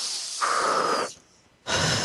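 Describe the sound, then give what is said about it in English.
Deep breathing during a guided relaxation exercise: a long, airy breath swells and holds, drops to near silence for a moment, then another strong breath begins. No talk. “And breathe.”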